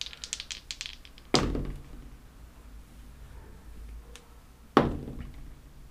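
Three dice are rolled during a Fallout 2d20 tabletop roleplaying game: two sharp clattering impacts a few seconds apart, each trailing off in a short rattle, with faint light taps between them.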